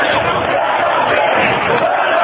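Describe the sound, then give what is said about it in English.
Protesters chant "Let us in!" at the Capitol during a rally against an attack on collective bargaining, a loud, dense roar of many voices that stays level throughout with no distinct beats standing out. “And so now the crowd is chanting, "Let us in! Let us in!"”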